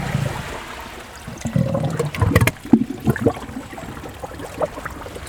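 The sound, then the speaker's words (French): Seawater gurgling and trickling as it seeps into rock: irregular wet bubbling and splashing that builds toward the middle, then thins to scattered drips and trickles. “De la mer qui s'infiltre.”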